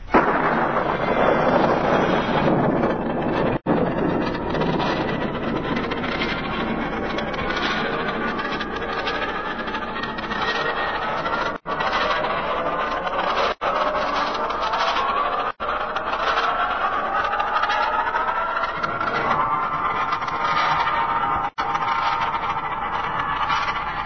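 Rocket launch roar after a countdown, a radio show intro effect: a loud, dense rumbling blast that holds steady for its full length, broken by a few brief dropouts.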